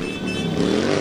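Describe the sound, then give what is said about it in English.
Motorcycle engines of the Dykes on Bikes riders at the 2011 Pride March parade rumble in a steady, loud, throaty drone that holds evenly through the moment. “that's the sound of Dykes on Bikes, and this is Pride March 2011.”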